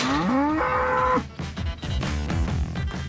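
A bull mooing in two long, loud, drawn-out calls with a rich, tonal, harmonic sound; the first call rises in pitch and then holds steady.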